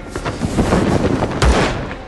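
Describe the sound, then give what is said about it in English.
Gunshots fired into the darkness: a dense, loud barrage of sharp cracks and booms over about two seconds, ending with a heavy low thump. “Barry fires into the darkness, and his shots briefly illuminate Lily's snarling face”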